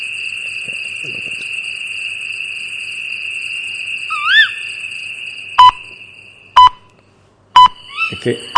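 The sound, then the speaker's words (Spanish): Radio time-signal beeps sound as a few short, evenly spaced pips about one second apart. They follow a steady high whistling tone and a brief warbling chirp. “Este no, esta es la señal horaria, ¿eh? Que esto nos ha colado.”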